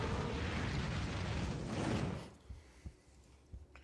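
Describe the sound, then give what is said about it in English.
Dragon roar sound effect played during a Dungeons & Dragons tabletop game, a loud, broad, rumbling roar that holds for about two seconds and then drops away to near quiet. “I like the dragon noise.”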